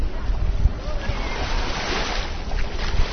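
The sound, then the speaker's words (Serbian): Sea waves washing around as people wade into warm sea water at six in the evening, a steady rushing, splashing wash of water. “Sada je 18 časova, znači 6 sati posle podne, voda je i dalje topla. Evo, ulazimo u vodu.”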